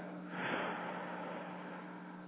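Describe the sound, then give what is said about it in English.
A deep breath drawn in and then blown out, a soft, airy rush of breath that stays quiet and even throughout, with no talking. “And take a nice deep breath in and blow it out.”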